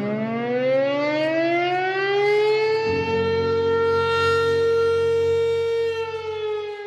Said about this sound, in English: What you just heard is a sundown siren. It's been used in what are called sundown towns to mark the moment at the end of the day when people of color were forced to leave the town.